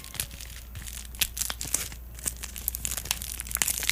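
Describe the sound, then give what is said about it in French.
Thick plastic wrapper of a Dolphin chocolate bar being opened, crinkling with irregular crackles and sharp little snaps throughout, fairly faint. “On va voir. On va l'ouvrir. On l'ouvre. Es-tu prêt? Je suis prêt. Le micro magique est prêt et t'attends. Chocolat Dolphin.”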